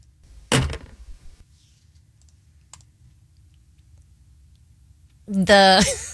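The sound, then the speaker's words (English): A dog park fence gate door swings shut with one sharp, loud clack near the start, followed by near silence with a faint tick, and then a voice begins speaking at the end. “The fence of a dog park door closing.”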